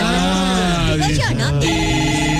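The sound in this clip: A telephone at a porter's desk ringing with an incoming call, a loud, steady electronic tone with a rich harmonic buzz that warbles briefly before holding steady.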